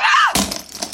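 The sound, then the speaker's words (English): A burner phone hurled against a wall and breaking into several pieces: a short high cry, then a sharp crash with a brief scattering clatter. “That was the sound of Sarah's burner phone breaking into several pieces after hurling it against the wall.”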